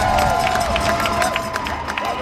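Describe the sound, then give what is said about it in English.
Crowd cheering as the USS Lincoln docks in San Diego after a ten-month deployment: a dense, continuous roar of many voices with scattered higher shouts, steady in loudness throughout. “Cheers in San Diego as the USS Lincoln docks after 10 months of deployment without a port call.”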